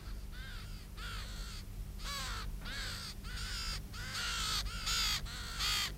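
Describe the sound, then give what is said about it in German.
Two ravens cawing in a steady run of harsh, hoarse calls, one after another with short gaps, fairly loud over a low, constant background hum. “Sehen Sie? Die beiden Raben da.”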